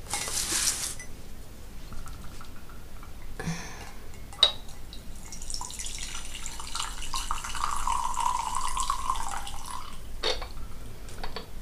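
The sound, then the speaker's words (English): Green tea being poured and stirred: a steady, watery splash runs for several seconds, opening with a short hiss and marked by a single sharp click midway. “I think I'll pour the green tea right now, actually. I think we need to make a start on this right now. Give it a bit of a stir.”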